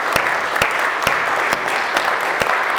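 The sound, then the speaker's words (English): Applause from a church audience during a service: dense, steady clapping with a few sharper claps standing out at fairly regular intervals, and no talking. “Welcome back to God's family. Give him a hand tonight.”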